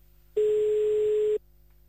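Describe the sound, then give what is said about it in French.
A telephone ringback tone plays as a call is placed: one flat, mid-pitched beep lasting about a second, alone between stretches of near silence. “Allez, on appelle à Bellecourt.”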